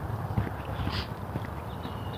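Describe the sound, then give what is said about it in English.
Footsteps on a treadmill set to 3.5 mph at a 3% grade: a steady walking rhythm of soft, muffled thuds over a constant whir. “Treadmill is such a workout.”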